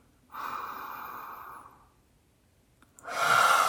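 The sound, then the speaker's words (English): A deep, airy inhale during a guided mindfulness meditation, lasting over a second and fading out, followed after a short pause by the start of another strong breath. “So we're going to inhale in.”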